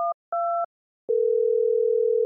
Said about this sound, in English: And then they have a phone number for each breed, so you can get direct hotline to your dog. Let's dial it up and talk to Dolly.